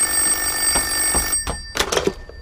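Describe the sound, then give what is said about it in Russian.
Home telephone ringing with a steady, bright electronic tone for over a second, then a few sharp clunks as the handset is handled. “Владимир звонит домой Ксении. Ксения берет трубку.”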